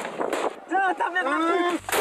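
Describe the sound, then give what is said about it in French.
Grenade launcher fire from gendarmes aiming GM2L grenades at protesters, with sharp, loud blasts at the start and end and raised voices in between. “Allez les gars, tir de GM2L, objectif des manifestants.”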